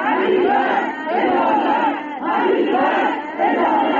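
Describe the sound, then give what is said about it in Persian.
Rhythmic crowd chanting from victims' families crying out for justice at Imam Khomeini Airport. Loud shouted phrases repeat in a few waves, each separated by a short dip. “همچنین خانواده های قربانیان این حادثه با در دست داشتن عکس قربانیان و شاخه های گل در فرودگاه امام فریاد دادخواهی سر دادند.”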